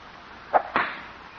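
A golf club drives the ball off the course tee: two short, sharp impacts in quick succession, the second with a brief trailing swish, standing out against a quiet background.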